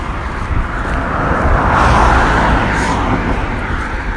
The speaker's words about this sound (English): Notice the car that just drove by.